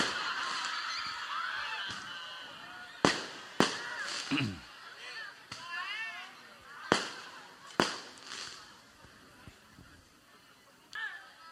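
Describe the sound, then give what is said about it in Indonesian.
Firecrackers go off in several sharp, loud bangs spaced irregularly, with honking, goose-like cries and voices murmuring faintly between the blasts. “Nyuwun pangapunten saderengipun kula berbeken suarane mercon.”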